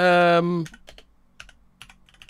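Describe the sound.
Typing on a computer keyboard to search online, a sparse run of light, irregular key clicks that follows a brief held voice at the start.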